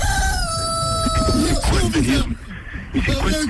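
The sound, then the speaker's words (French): A rooster crows in a drawn-out call that falls in pitch, then people talk loudly over scattered noise. “y a Jean-Louis, il a ramené un coq”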